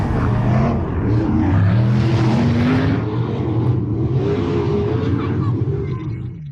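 Race cars roar around a dirt track speedway outside Parkersburg, West Virginia, in a loud, continuous engine drone whose pitch surges and dips as the cars rev and pass.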